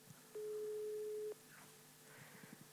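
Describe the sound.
A single steady ringback tone sounds for about a second as someone places a phone call, followed by quiet with only faint background noise.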